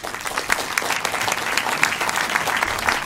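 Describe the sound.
An audience applauds to welcome a speaker at a Center event: steady, dense clapping at an even level throughout.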